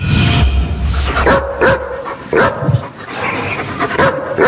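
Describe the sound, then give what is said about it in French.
A dog barks loudly in several sharp, separate barks mixed with higher yips and whimpers, with short pauses between them. “je dirais quand même un aboiement de chien”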